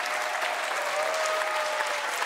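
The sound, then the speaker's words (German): Audience applause for children who played trumpet and clarinet, a steady, dense rattle of many clapping hands at an even loudness from start to finish. “Euch allen diesen Applaus.”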